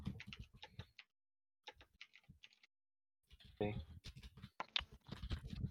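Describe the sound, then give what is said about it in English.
Rapid computer keyboard typing as players enter their actions for a fantasy battle game against a Hobgoblin: dense bursts of sharp clicking keystrokes, a brief pause, a sparser run, then a longer, busier flurry of taps to the end. “And get your typing ready.”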